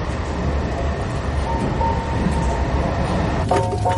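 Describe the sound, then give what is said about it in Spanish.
Steady roar inside a moving train carriage: a dense, continuous low rumble at even loudness, with a brief high tonal whine breaking through near the end. “Después, ambos están en un vagón. El pequeño mira por la ventanilla y su padre dormita sentado a su lado.”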